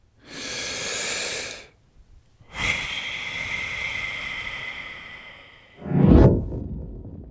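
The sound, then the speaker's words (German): Slow breathing in and out, offered as a way to calm anger: a few long, airy breaths with gaps between them, the longest lasting about three seconds, and a final, lower, rougher exhale. “Oder einfach mal ein- und ausatmen.”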